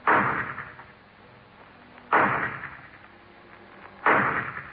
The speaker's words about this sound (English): The shot came from a low barn-like building at the rear of the property